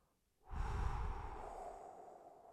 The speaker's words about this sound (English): Another big breath, big inhale. Exhale through your mouth,